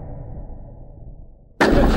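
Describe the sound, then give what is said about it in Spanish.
A single sudden, loud bang of gunfire during a street riot after looting cuts sharply through a low, steady rumble of background noise and rings on to the end. “Cuidado, correte, hay que guarecerse. Empezaron los disparos.”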